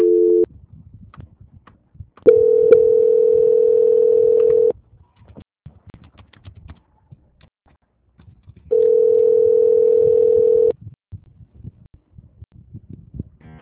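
A telephone line tone plays during a call transfer: a short tone fragment at the start, then two long, steady, mid-pitched tones of about two seconds each. Near-silence and faint line noise separate them.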